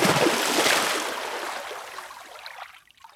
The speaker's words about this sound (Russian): Потом схватил ведро с водой, взлетел чуть повыше и вылил всю воду на тлеющую траву. Плюх!